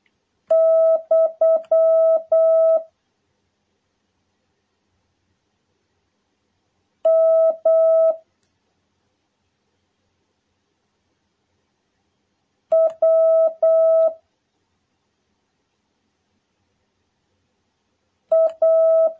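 Steady, high Morse code tones key Japanese kana characters in four separate bursts of rapid dots and dashes, all at one unchanging pitch and separated by long silences.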